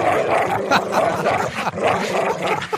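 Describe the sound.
Home security alarm that plays a fake recording of a dog barking: a steady run of loud, rough barks and growls that continues without a break.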